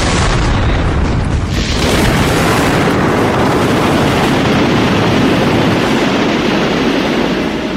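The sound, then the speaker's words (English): A starship exploding in an audio drama, a loud roaring blast of dense noise that rumbles on steadily for several seconds, with no voices. “The Constitution has just exploded. There's nothing left of it.”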